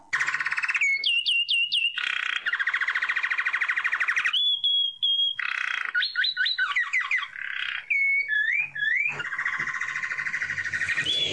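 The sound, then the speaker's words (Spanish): Saffron finch song from the Argentine countryside: a loud, continuous run of buzzy, rapid trills alternating with bright, whistled upslurred chirps, repeating in phrases for over ten seconds with no voices. “El jilguero dorado que estamos escuchando es una de las aves más conocidas de la Argentina, a tal punto que es difícil salir al campo y no verlo.”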